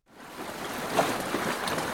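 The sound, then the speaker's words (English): A boat moves along the river in Paris, heard as a steady rushing wash of water and engine noise. It fades in at the start and then holds at an even, moderate level with no distinct events. “I'm on a boat. I can see the river and trees and houses.”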